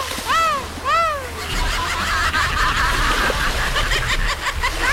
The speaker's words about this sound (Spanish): por ahí el sonido de una gaviota.